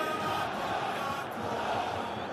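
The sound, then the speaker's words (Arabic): Spectators in a crowd cheer in a steady, dense roar that stays fairly faint and even throughout, with no single voice standing out. “اسمع الجمهور”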